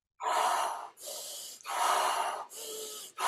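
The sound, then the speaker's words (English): Loud, forceful breaths from an energizing pranayama breathing exercise come in a steady series of rushing, airy pulses separated by brief pauses, with no talking. “So if I was going to get you a little more active, like let's say like a traditional pranayama, even the Wim breath that we talked about last time.”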